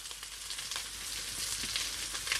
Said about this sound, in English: So I'm just going to continue moving everything around that pan. Never stop moving. And for the next minute of stirring, we're just trying to take the edge off the ingredients I've just added.